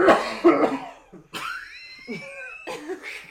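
A person coughs and clears their throat to get rid of an insect or something itchy caught in it. A few rough, breathy bursts are followed by quieter throat sounds.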